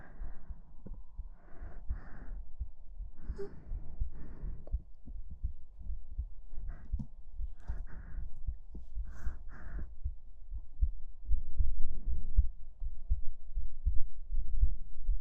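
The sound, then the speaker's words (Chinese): Heartbeat thumping in a steady regular rhythm, many dull low thuds repeating throughout, quiet at first and growing somewhat louder toward the end, with no talk. “您说可以听到我的心跳声”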